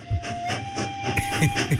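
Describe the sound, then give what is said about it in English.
A miniature train running around a pub garden for children gives a thin, steady whistle tone over soft, rhythmic chuffing. There are no voices. “Well, we are quite near the railway. Well, that's that miniature train they have running around the garden for the kids.”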